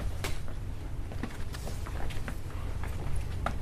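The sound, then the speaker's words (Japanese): Footsteps walking through the menswear section of a clothing store, a faint series of soft, irregular steps over a steady low background hum. “じゃあちょっと実際店舗歩いてみましょうか。今メンズコーナーですね。”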